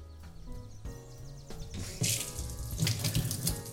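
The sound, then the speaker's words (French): Lukewarm tap water running from a faucet while preparing a baking mixture with sugar and baker's yeast. The stream is faint and splashy and grows louder and hissier about halfway through. “je vais chercher mon eau tiède”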